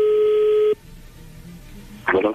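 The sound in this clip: A telephone tone sounds while a number is dialled for a prank call. One steady tone lasts under a second and is followed by near silence, then a short burst of voice.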